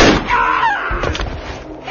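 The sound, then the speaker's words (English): A single loud, sharp bang from a small .32 caliber automatic pistol fired from the hip hits at the very start, then decays into a rough, rumbling tail that fades over the following moments. “reaching for the silvered butt of the little .32 caliber automatic that he'd noticed in the woman's belt. He palmed it smoothly and thumbed back on the hammer, firing from the hip.”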